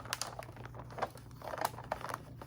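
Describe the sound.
A packet of Oreo cookies crinkles as it is handled, quiet, soft, irregular rustles and crackles in close succession, with no talking.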